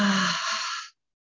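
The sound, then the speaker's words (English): A big breath out through the mouth during a guided breathing and meditation exercise: one long, airy exhale that holds steady for most of a second, then stops abruptly into silence. “And take a deep breath in through the nose. Lift those shoulders up. And then a big breath out through the mouth.”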